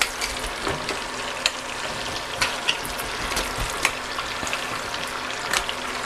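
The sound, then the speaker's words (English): Food sizzles in a frying pan as it is stirred and scraped across the bottom. A steady hiss runs throughout, broken by scattered sharp scrapes and taps of the utensil, with no talk. “And then we're going to stir one more time and kind of evenly distribute stuff.”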